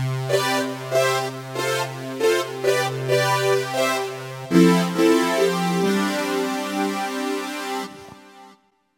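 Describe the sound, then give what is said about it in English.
An inexpensive synthesizer plays a voice patch in sustained, harmonically rich tones, shifting between notes in an even rhythm before cutting off at the end. “But then I also found this voice on it, and I was wondering if a cheap synthesizer sounds like this.”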